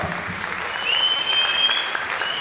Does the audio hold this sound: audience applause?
yes